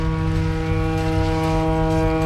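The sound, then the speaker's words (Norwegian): A ship's horn sounds as a boat carrying Danish football fans arrives in the capital: one loud, deep, steady harmonic blast held without a break for the whole clip. “Det et båthorn, tror jeg. Ja, for danskene har kommet.”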